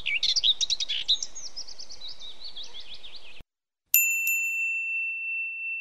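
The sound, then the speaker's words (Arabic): A flock of sparrows chirps in dense, rapid, high-pitched twittering for about three seconds, then the chirping cuts off and a couple of bright, ringing bell-like dings follow. “فجأة ظهر سرب عصافير.”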